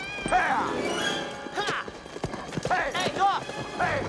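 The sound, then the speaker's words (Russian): Hooves of a pair of horses pulling a wagon along a road through prairie, a quick, steady clip-clop under people talking, with a few louder knocks mixed in. “Повозку несет пара лошадей.”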